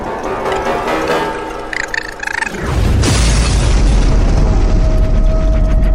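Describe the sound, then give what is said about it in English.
A massive mallet smashing down on a mechanical raccoon in an octagonal room: a dense, noisy rush breaks into a loud booming impact that gives way to a sustained, roaring crash of scattering metal parts. “the Cyclops brings this massive mallet down upon this poor raccoon”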